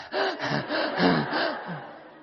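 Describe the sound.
A voice imitating gasping for breath after holding it, with several loud, rasping gasps in quick succession that fade into a softer exhale.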